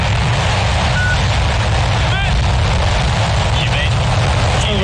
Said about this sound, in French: Ce bruit qui a retenti dans le désert de Gobi marque une nouvelle étape dans la course à la Lune. Et vous avez peut-être reconnu le son du décollage d'une fusée, une fusée chinoise.